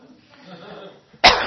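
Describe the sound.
A single harsh, hacking cough bursts out sharply at the end, right after a stretch of someone talking.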